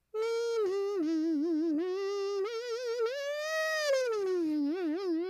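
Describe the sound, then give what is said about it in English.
A voice imitates a kazoo or air guitar with the mouth, making a buzzy, nasal, sustained tone. Its pitch wobbles and bends throughout, climbs higher near the end, then slides back down. “I make one relatively cool noise with my mouth. I'll demonstrate it for you now. I call it a human kazoo or an air guitar, but it sounds like this.”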